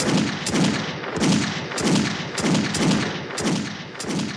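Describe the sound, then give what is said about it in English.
Chain gun fire in a film: loud, heavy bursts of gunfire repeating in a steady rhythm roughly every 0.6 seconds throughout, with no voices. “oh, there it is. Oh. Chain gun.”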